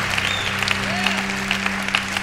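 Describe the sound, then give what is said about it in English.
Applause breaks out among a church audience gathered in an overflow room: continuous clapping with scattered sharper claps and a low steady hum beneath. “Are you guys clapping over an overflow? That's when you know overflow's going good, if they're actually clapping in overflow.”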